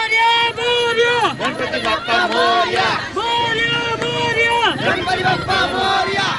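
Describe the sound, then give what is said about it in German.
Crowd chanting at a Ganesh festival procession in Pune, where many voices accompany a tall idol on a truck decorated with flowers and paper garlands. The chant is loud and continuous, with repeated phrases that rise and fall together in unison. “Ganpati Bappa Morya, Väterchen Ganesh, lebe hoch, ruft die Menge, die eine meterhohe Götterstatue auf einem mit Blumen und bunten Papiergirlanden verzierten Lastwagen begleitet.”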